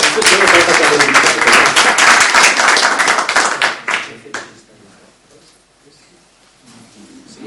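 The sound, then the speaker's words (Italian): Loud audience applause for a professor at a foundation event. Dense, vigorous clapping runs for about four seconds, then thins quickly and stops, leaving near quiet. “Quindi io farei un applauso al professor Leonardi”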